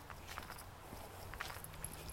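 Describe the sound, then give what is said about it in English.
Faint footsteps scampering down a hill in crisp autumn weather, a quiet and fairly steady run of soft, scuffing steps over low background noise. “as I scamper down this hill in the fall autumn crisp”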